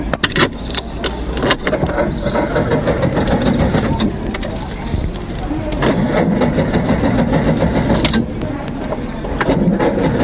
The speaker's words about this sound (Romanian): Dar nu pornește. Nu mai chinui, domne, nu mai chinui. Asta tot nu o să mai pornească niciodată.